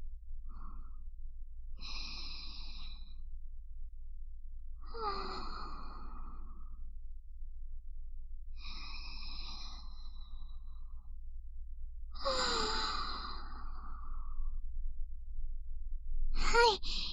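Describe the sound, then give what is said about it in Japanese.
Slow, deep breaths taken to calm down: a few long, audible inhales and sighing exhales spaced several seconds apart, fairly quiet over a steady low hum, ending with a brief sharp sound. “ちょっと深呼吸しますね。”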